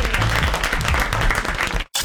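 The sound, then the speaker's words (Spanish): An audience applauds after a host thanks them for enjoying a family show. The clapping is dense and loud, then cuts off abruptly near the end, leaving a brief gap. “Bravo, el aplauso. Bravo. Bien grande.”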